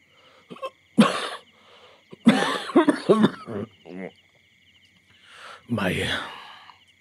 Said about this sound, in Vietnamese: giả vờ ho khan mấy tiếng